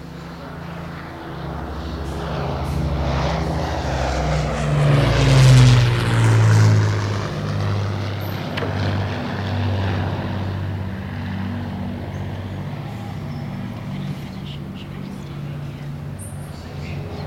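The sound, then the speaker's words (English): Drone of an Avro Lancaster bomber flying past during a commemorative service at a memorial. The low, rumbling propeller-engine roar builds to a peak near the middle, then eases slightly and carries on steadily to the end. “we will listen to those in the sky and the Lancaster fly past.”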